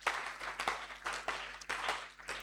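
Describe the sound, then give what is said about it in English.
Half-hearted clapping from a church audience during a sermon comes in several uneven, tired bursts that rise and fade. “Even the clapping is tired. Don't clap.”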